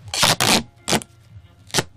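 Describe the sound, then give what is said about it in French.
Adhesive tape is pulled and wrapped around a drink can and plastic bottle to make a homemade horn, in four short crackling rips: two close together, a third after a pause, and a brief last one. “Oh, c'est beau le son du scotch.”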